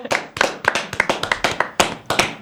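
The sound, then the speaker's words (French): Hands clapping at the close of a small group gathering: a quick run of many crisp, distinct claps in an uneven rhythm, bright and fairly loud, with no talking over them. “J'observe que Alexandre n'a pas applaudi.”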